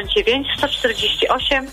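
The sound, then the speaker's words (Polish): A radio playing too loudly at the caller's end of a phone call comes through the line as tinny, muffled voices that run on without pause at a steady, fairly loud level, their pitch rising and falling throughout with no clear words. “znowu za głośno radio po drugiej stronie. Proszę ściszyć radio najpierw.”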